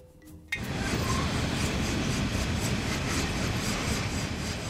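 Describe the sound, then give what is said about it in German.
A freight train of up to a hundred open wagons hauls coal from the Cesar mining area in Colombia. A heavy, steady rumble with metallic clinks sets in abruptly and holds at an even loudness. “Züge mit bis zu 100 offenen Waggons bringen die Kohle von Drummond und Glencore zur Verladestation.”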